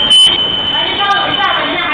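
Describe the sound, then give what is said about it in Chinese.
A shop door's anti-theft alarm goes off as someone walks out, giving a steady, high-pitched electronic tone with a brief, louder beep near the start. “然后他在他往外走的途中，然后这个门又报警了。”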